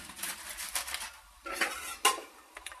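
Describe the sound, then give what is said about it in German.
Spoon clinking and scraping against a bowl while marzipan is mixed with raisins, with a few quiet, irregular knocks and rubbing strokes and no talking. “Dazu brauchen wir eine Schüssel, weil wir das Marzipan jetzt mit den Rosinen mischen.”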